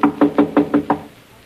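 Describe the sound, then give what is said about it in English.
Six firm, evenly spaced knocks on a closed laboratory door, loud and quick, followed by quiet. “His door's closed. We better knock.”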